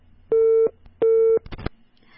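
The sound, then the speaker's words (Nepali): Busy signal on a telephone line after a call was cut off: two steady, mid-pitched beeps of equal length with a short gap between them, then a brief burst of clicks and line noise. “भर्खरै मात्रै श्यामजी जोडिनु भएको थियो तर केही कारणले गर्दाखेरि phone काटिएको छ।”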